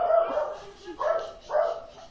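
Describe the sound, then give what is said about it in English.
A dog barks three times in short, mid-pitched bursts, with the last two close together and some softer whining between them. “Holding off 1 second for the dog to calm down.”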